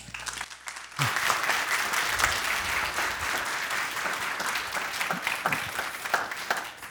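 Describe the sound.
A church audience at Dighton Wesleyan Church applauding to welcome a guest speaker. After a brief quieter moment the clapping swells into dense, sustained applause that carries on to the end.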